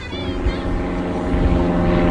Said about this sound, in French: Qu'est-ce que c'est, ça, comme avion? C'est des gens qui sont dans leur avion, eux, qui sont propriétaires de leur avion.